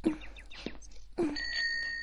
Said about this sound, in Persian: شبیه یه زنگوله کوچولوئه.